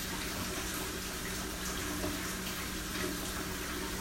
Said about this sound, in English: so when you are cleansing your stones in water, you want to visualize